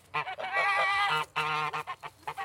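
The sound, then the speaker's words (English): Geese honking on a working farm with orchards and allotments in the city: a loud run of nasal honks, the first few long and drawn out, then shorter and more rapid ones, with no talk. “there are geese, as you can hear,”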